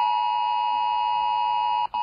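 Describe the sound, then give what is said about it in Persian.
A steady electronic alert tone from a Swedish mobile phone emergency alert system sounds loud and continuous, a rich buzzing pitch with strong overtones, held almost unbroken with one brief dropout near the end. “این سامانه هشدار جدید تلفن همراه است.”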